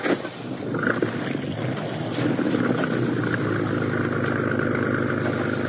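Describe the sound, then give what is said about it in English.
A boat motor starts up and keeps running, settling quickly into a continuous, throbbing low drone that holds steady and fairly loud. “Start the motor up again.”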